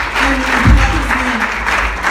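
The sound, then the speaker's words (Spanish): Church audience applauding during a bilingual Spanish and English service, steady clapping that runs the full length while a voice speaks over it. “Si alguien de la iglesia pueda darle gloria a Dios en esta tarde. I don't know if somebody y pueda dar un aplauso de júbilo en esta hora.”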